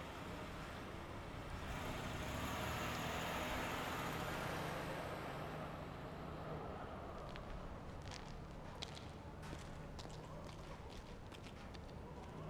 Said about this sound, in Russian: Рядом проезжает полицейская машина.